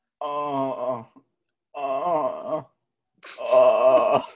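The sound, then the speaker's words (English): A man groans in a bedroom at night: three drawn-out, voiced moans separated by short pauses, the last one louder and more strained, with no other sounds. “As we ease into the bedroom, we hear Nick groaning.”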